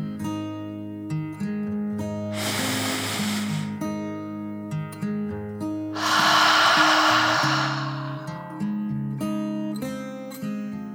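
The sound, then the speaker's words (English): A deep breath in and out during a calm children's bedtime story: two soft, breathy rushes, the second longer and fuller, over gentle melodic background music. “took a deep dragon breath in and out”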